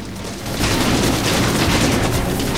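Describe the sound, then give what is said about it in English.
Rapid gunfire in a film action scene as attackers in a 4x4 strafe dry, dusty ground, rising after a brief quieter start into a loud, dense, unbroken volley of shots. “Beckett jumps down from the barn, rolls and shoots a man in the chest with his pistol. More attackers riding in a 4x4 strafe the dry, dusty ground in front of Beckett with bullets as he runs.”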